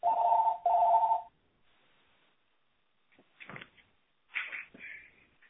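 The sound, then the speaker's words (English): A phone rings in the background during a group call, two short ringing bursts back to back at the start, followed by quieter scattered clicks and muffled noises. “Sorry for my phone ringing in the background. Okay, any questions? I'll keep it open while my phone continues to ring.”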